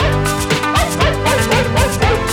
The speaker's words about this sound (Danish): Sang for den hund, der er forsanger.